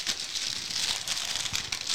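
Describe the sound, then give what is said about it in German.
A silver, non-transparent plastic bag crinkles as it is pulled out of a package. The rustling is dense, crackly and continuous, moderately loud, with a few sharper crackles and no voices. “Oh, und wir haben drin eine silberne Tüte. Also Tüte nicht, Plastik. Einen silbernen Plastikbeutel, den wir rausziehen können. Nicht durchsichtig.”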